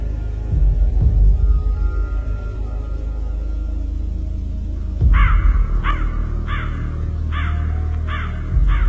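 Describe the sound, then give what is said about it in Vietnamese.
A crow caws in a series of harsh, repeated calls that arrive in quick succession through the second half, after a quieter stretch of low rumbling background. “con quạ kêu lên những tiếng lạnh lùng, quả quả, rồi tung cánh bay đi.”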